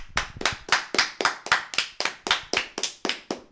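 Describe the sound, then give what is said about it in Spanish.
Applause for the runner-up football team Pachuca at the close of a tournament, heard as a steady series of crisp, evenly spaced hand claps of moderate loudness with no voices. “un aplauso para el subcampeón Pachuca, el mejor equipo del torneo”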